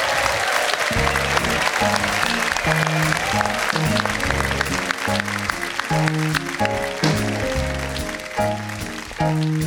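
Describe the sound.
Audience applause welcomes a singer at a live show: steady, dense clapping runs throughout as a band plays rhythmic chords beneath it, easing slightly toward the end.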